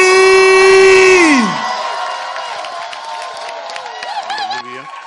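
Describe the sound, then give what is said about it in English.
A church audience cheers and makes noise to welcome a bishop. A loud, long sustained whoop slides down in pitch, then gives way to a mix of shouts, cheers and whoops across the crowd. “I want you to stand to your feet and make some Holy Ghost noise and welcome Bishop Richard Ayi.”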